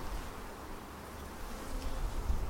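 Honey bees buzz near their queen during beekeeping work, a dense continuous low drone that holds steady and swells slightly toward the end.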